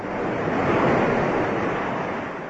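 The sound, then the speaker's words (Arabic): Seawater rushes and splashes as a man throws himself from a ship into the sea, a broad steady surge that swells and then fades slightly over a few seconds, with no voices. “ورمى نفسه إلى الماء، ومد الملاحون له طوق النجاة”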